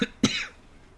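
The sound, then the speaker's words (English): Two short, harsh coughs from one person, the second louder and fuller than the first, followed by quiet. “I'm glad that my cough still sounds like a cough.”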